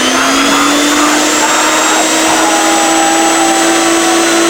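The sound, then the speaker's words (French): A vacuum cleaner runs with a loud, continuous whirring roar and a steady motor whine that creeps slightly upward in pitch throughout. “Ah non, pas l'aspirateur.”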